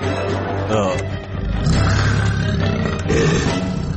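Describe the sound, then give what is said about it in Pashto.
A tiger that has come out of the forest to attack a village roars continuously, a deep, rough, loud growling roar that fills the whole clip with dense, rumbling texture and slight surges in strength. “ناڅاپه له ځنګله څخه یو پړانګ راغی او په کیلي حمله کوله.”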